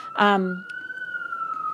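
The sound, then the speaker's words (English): Siren wail holding one long steady tone that climbs slightly and then eases down, following a short voiced sound at the start. “The sirens.”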